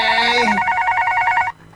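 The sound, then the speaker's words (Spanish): A telephone rings with a steady, warbling electronic trill of two alternating tones, sounding loud and alone before it stops abruptly. “Disculpe, pero tenemos otra llamada. Debemos atenderse.”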